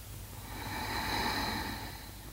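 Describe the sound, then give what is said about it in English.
Breathing in and out through the nose during a guided breathing exercise. A soft, airy hiss swells and fades over about two seconds, faint and alone. “Breath in through your nose and out of your nose.”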